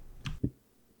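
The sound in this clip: Two short, crisp mouse clicks confirm a selection in a card game, faint and close together.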